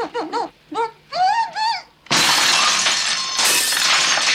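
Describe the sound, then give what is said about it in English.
Window glass is smashed in a loud, sudden shattering crash, followed by sustained bright crackling and tinkling of breaking shards. A few short, raised voice bursts come before the break. “Having smashed a window in”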